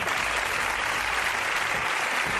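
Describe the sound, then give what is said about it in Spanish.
Applause from a crowd of police officers and administrative staff at the regional police headquarters in Sabadell, greeting an arrival. The clapping is loud, dense and unbroken throughout. “y personal administrativo, en la sede de los Mossos, en Sabadell, aplaudiendo la llegada como un héroe de José Luis Trapero.”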